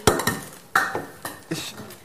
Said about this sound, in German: Dazu nehme ich einfach den anderen Topf.